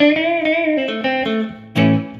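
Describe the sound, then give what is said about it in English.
Tiled-room reverb effect with a bathroom-like echo on a buzzy, harmonic-rich instrument tone. The tone steps through several sustained notes, and a louder burst comes near the end. “Tiled room. So you get that real bathtubby effect.”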